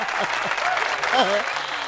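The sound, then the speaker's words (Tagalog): Audience applause as a crowd claps steadily in a dense, even roar, with a voice speaking over the clapping. “Lakasan niyo pa yung palakpak.”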